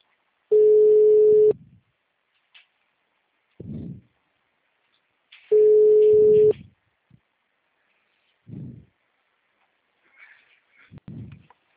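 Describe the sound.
Ringback tone of an outgoing telephone call: two steady one-second beeps about five seconds apart, with faint brief noises in the quiet gaps between them.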